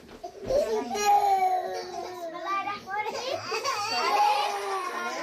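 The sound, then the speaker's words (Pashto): Small children aged one to five crying and reciting lessons together in a small room of a women's prison. Overlapping young voices, wailing and chanted speech continue at a moderate level throughout. “څوک ژاړي او څوک درس وایي”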